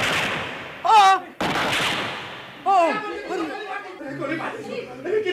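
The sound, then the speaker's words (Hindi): Gunfire cracks out in a courtroom during a trial as sudden broad blasts, with a loud cry between them and a burst of agitated, overlapping voices afterward. “अरे ये क्या, ये गोली किसने चलाई? पकड़ो उसे, पकड़ो फौरन, और गवाह को अस्पताल ले जाओ, जल्दी करो।”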